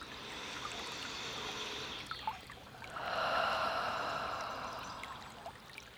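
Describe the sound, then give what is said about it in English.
A slow deep breath during a guided relaxation: a long, soft, airy inhale, a short pause, then a longer and fuller breathy exhale, faint and with no talk. “Taking a deep breath here.”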